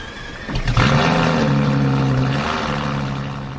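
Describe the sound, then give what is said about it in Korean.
A car engine starts up and pulls away, swelling into a loud, steady low droning roar with a slight rumble that holds, then eases off gradually toward the end. “차 나간다.”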